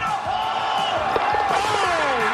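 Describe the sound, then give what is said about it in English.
A crowd at an Australian football match roars as a player lines up a kick at goal. The dense, steady noise of cheering and yelling carries prominent raised voices that rise and fall over it. “Listen to the crowd. They're going to go nuts when he hits this thing.”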